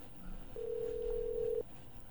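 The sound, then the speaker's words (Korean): A single steady telephone tone holds for about a second over faint background hiss while a call is being placed to reach an interview guest, then cuts off abruptly. “아, 전화가 연결이 조금 덜 됐네요. 다시 한번 제가 연결을 해보겠습니다.”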